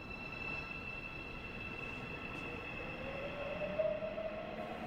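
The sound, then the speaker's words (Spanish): A metro train departing a station makes a steady low rumble with a thin, high whine and faint wheel squeal, swelling slightly near the end. “quien se despide abordando el metro. El metro se marcha.”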